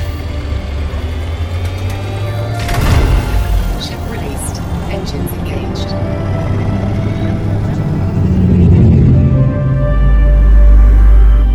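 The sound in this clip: Spacecraft engine rumble during a launch: a steady mechanical hum with a sharp sweeping whoosh early on, then a deep, low roar that swells and grows louder toward the end.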